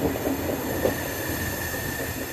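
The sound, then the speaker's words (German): A sleeper train rolling through the suburbs of Ankara with squealing brakes, its steady low rumble overlaid by a thin, sustained high-pitched squeal, continuous with no voices. “Fast eine Stunde lang rollt der Zug mit quietschenden Bremsen durch die Vororte Ankaras”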